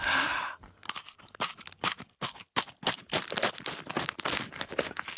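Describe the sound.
Crunchy brown-sugar fu-gashi, a puffed wheat-gluten snack, being bitten and chewed: many sharp, dry crackling crunches come in quick, irregular succession, fairly loud and up close, after a brief sound at the start.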